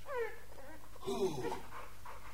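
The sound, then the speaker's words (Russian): A dog whines and yelps in a few short bursts: a thin high whimper at the start, then a louder, rougher cluster of yelps or panting in the middle, and faint sounds trailing off. “Собака? На привод возьми.”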